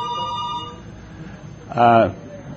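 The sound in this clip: Telephones ringing in a busy office. A faint electronic ring is followed after a pause by a shorter, louder ringing burst over a low background hum.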